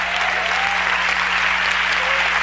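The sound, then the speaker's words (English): An audience claps its hands during a church service. The clapping is steady, dense and loud and continues without a break from start to end. “I say you ought to clap. If you can clap with everybody, clap.”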